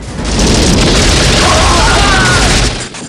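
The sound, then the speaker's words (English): A grenade blast in a Rambo action film roars as one loud, dense rumble that holds for about two and a half seconds before cutting off abruptly. “As Rambo runs to Hamid's aid, Kurov fires a grenade which blows near Rambo and sends him flying.”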